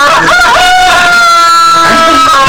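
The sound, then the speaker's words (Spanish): Roosters crowing at a ranch at night, loud, drawn-out cock-a-doodle-doo calls with sweeping, wavering pitch, one at the start and another near the end. “¿y por qué los gallos ya están cantando si todavía no es hora? Siempre cantan en el rancho.”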